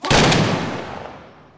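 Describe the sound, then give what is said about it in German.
A single loud volley fired from historical rifles by a citizens' militia as a salute during a Corpus Christi procession, a sharp combined crack followed by a long rumbling tail that fades out. “Dann lädt die Bürgermiliz ihre historischen Waffen und erweist dem Allerheiligsten die Ehre. Salve zum Lobe des Herrn.”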